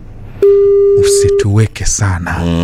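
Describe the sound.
A single long, steady ringing tone of an unanswered phone call sounds for about a second, then stops and a voice begins speaking over low background noise.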